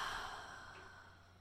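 A single slow, soft exhale during a guided breathing exercise: an airy, breathy hiss that starts strongest and fades gradually over about a second and a half, heard alone.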